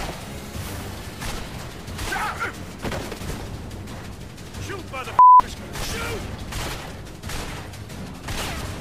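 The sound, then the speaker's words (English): Gunfire in a video game: a few sharp shots and bursts over a continuous background of mechanical rumble and rattling. “Wow, why am I being shot at?”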